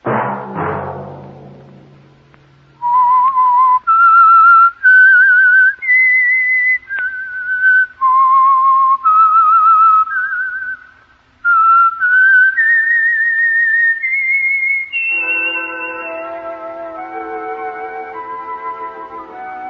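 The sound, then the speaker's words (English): Whistled tune used as a radio program's signature signal: a solo melody of clear, sustained high notes stepping up and down in held phrases separated by brief pauses. “That whistle be your signal for the Signal Oil program, The Whistler, each Sunday night at this same time.”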